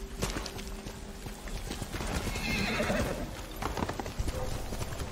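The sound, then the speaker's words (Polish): Horse galloping and neighing in a video game: rapid, steady hoofbeats run throughout, with a whinny rising out of the clatter midway. “Skakuj na konia!”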